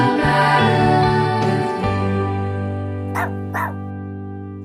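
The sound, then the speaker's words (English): Dogs in a Portland, Oregon home studio give long, steady whining tones, followed near the end by two short, sharp barks. No one talks. “I come to you surrounded by dogs today.”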